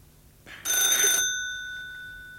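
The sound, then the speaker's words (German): A telephone bell rings once in a short, bright burst with steady ringing overtones, then cuts off and leaves a lingering tail that slowly fades. “Das Telefon.”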